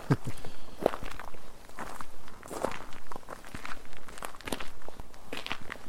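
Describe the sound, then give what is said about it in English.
Several people's footsteps as they walk toward a cemetery at night: many uneven, scuffing steps, fairly quiet and overlapping, in an irregular walking rhythm. “And we're just kind of walking towards the cemetery.”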